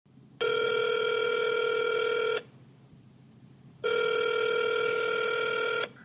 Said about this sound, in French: On l'appelle.